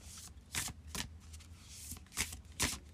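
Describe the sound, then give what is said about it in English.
Oracle cards being shuffled by hand: a few quick, papery bursts of riffling and flicking over a steady low background hiss. “we're going to pull a spell casting oracle card.”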